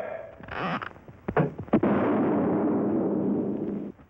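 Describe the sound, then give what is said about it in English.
A puffing gun fires off Quaker puffed wheat and puffed rice. A few sharp pops and bangs lead into a loud, sustained rushing hiss that stops abruptly near the end. “Quaker puffed wheat and Quaker puffed rice are shot from guns. We'd like to show you this process.”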